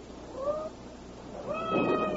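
A cat meows twice, fairly faint over a soft background hiss: a short first cry, then a longer, drawn-out second one.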